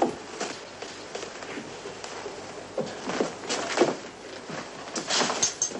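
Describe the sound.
A wooden cabin door is pulled shut in a Western setting, heard as a few soft, faint knocks and thuds mixed with light shuffling movement.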